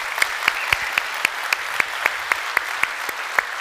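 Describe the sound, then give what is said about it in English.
Applause from a church audience welcoming people, with steady, evenly spaced claps standing out sharply above a softer bed of general clapping. “So if you are here in person, would you put your hands together and welcome in our online family?”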